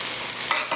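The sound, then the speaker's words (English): Peas frying in a pan with dill weed give a steady sizzling hiss, with two brief louder bursts near the end as the pan is stirred. “Fry those up just a little bit.”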